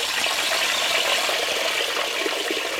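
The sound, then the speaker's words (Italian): Water rushes in a steady, loud, hissing flow that stays even and unbroken from start to end, with no talk over it. “L'elemento dove la vita nasce, del quale in massima parte siamo composti. L'acqua.”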